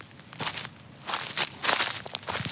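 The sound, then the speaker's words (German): Footsteps crunch across a rock-hard, dusty deciduous forest floor scattered with prematurely shed branches and dry fallen leaves, giving several crackling, rustling steps in an uneven rhythm, fairly soft throughout. “Wenn man heute auf dem Waldboden läuft, also gerade in Laubbeständen, das ist zum Teil steinhart und staubig und man hat vorzeitig abgeworfene Äste, die auf dem Boden liegen oder auch das Blätterwerk auf dem Boden.”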